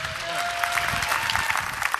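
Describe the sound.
Church audience applause welcomes a visiting pastor from Spokane, Washington, a lively patter of many clapping hands with a sustained tone beneath it early on.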